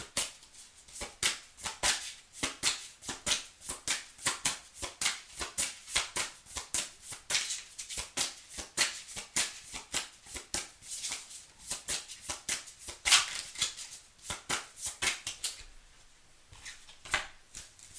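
Tarot cards being shuffled by hand, a long run of quick, crisp riffling flutters and soft slaps in a steady rhythm, with no talking, tapering off near the end.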